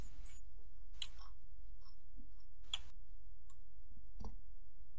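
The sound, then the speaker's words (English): Sparse keyboard typing, a few sharp clicks and taps at irregular intervals against a quiet background. “talk while I type”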